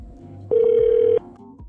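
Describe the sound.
Phone tone heard while a Verizon Wireless number is redialed: one steady, mid-pitched electronic beep lasting under a second, set against a faint low background.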